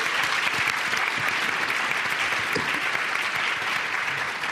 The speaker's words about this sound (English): So please put your hands together and welcome Kate.